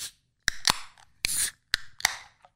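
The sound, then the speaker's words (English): A 16-ounce beer can is cracked open. A few sharp metallic clicks and snaps come with a brief burst of fizzing hiss, all fairly faint and with no talking over them. “let's crack this one because I'm thirsty.”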